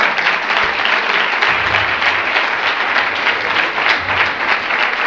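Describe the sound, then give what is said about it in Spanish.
Loud applause from a conference audience greeting a speaker, many hands clapping in a thick, steady roar with no breaks and no voices on top. “La recibimos con un fuerte aplauso.”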